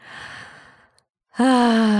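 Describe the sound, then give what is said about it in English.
A deep breath drawn in during a guided relaxation, an airy inhale that tapers off, a brief silence, then a loud, long, voiced sighing exhale with a steady low hum. “So if that is you right now, I invite you to just take a deep breath with me.”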